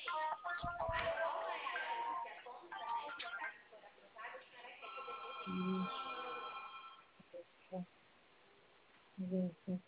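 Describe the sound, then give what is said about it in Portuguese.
Ringing of a cellphone placing an outgoing video call, a steady repeating electronic tone running through the first several seconds under ongoing talk, then giving way to short bursts of speech. “tô ligando no 45 de vídeo”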